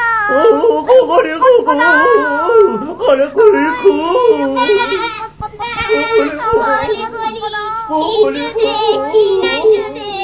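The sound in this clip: A voice imitating a cat moaning with a stomach ache in a children's story, drawn-out wavering whimpers and bleating cries that rise and fall in pitch, loud and nearly continuous with brief breaks.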